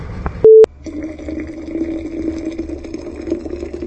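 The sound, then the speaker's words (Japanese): Hot water is poured into a thermos pot. A short electronic beep sounds first, then a steady, even rush of filling water continues to the end, with no voices. “今お湯をポットに入れております。”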